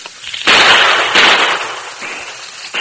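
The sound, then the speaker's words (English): Two loud gunshots in a Western radio drama, sharp bursts in quick succession, each with a short decaying tail and no speech over them. “Fire a shot or two in that direction to cover me, Tonto.”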